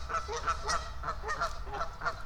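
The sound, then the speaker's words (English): Irate geese honking on the water: many loud, nasal honks in a quick, repeating rhythm that runs without a break over a constant low rumble. “What are these guys honking at? What are you two clowns honking at?”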